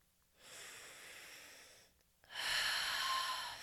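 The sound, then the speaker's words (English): Slow, deep breathing during a guided breathing exercise: two long, airy breaths, the second louder and brighter than the first, soft and heard alone with no talk. “I want you to take five more breaths with me, counting them backwards down to one.”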